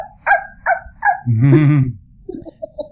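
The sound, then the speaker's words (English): A human voice imitates a small dog, a chihuahua, barking: three short, high yaps, then a longer, strained bark, then a few quieter, clipped yips. “we like to say we're imitating a small dog, preferably a chihuahua, going,”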